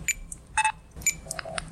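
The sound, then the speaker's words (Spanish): Electronic beeps at a supermarket checkout: a quick run of short, clear tonal bleeps at differing pitches, some in close pairs, over a low steady background hum. “Este es el sonido de un supermercado.”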